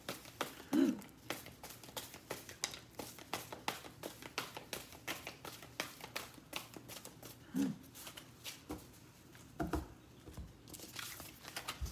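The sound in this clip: Cards being shuffled for a card reading: a long, quiet run of soft riffling taps and flicks in uneven bursts, with brief pauses between them.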